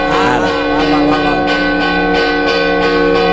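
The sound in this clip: Church bells ring with loud, sustained, humming tones, struck again and again at an even pace so that the ringing layers and never fully fades.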